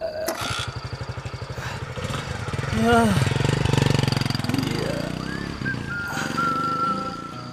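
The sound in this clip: A motorbike engine starts with rapid pulsing firing, then revs and settles into a rough, buzzing run whose pitch rises and falls, with voices heard over it.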